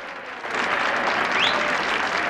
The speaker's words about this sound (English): John and George are at the front applauding enthusiastically.